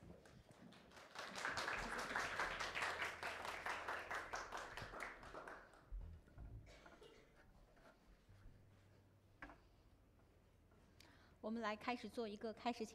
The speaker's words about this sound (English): Let us put our hands together to welcome Pastor Xiaowen and Brother Huai En.